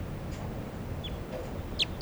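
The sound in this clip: Calls of a light-coloured female wild crossbill: a few short, high chirps, the clearest two close together near the end, faint over a steady low background hiss.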